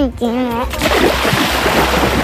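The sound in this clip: Water splashing and sloshing as people rush into a swimming area off a sandy beach. A brief voice comes first, then a dense, continuous wash of splashes that stays loud to the end.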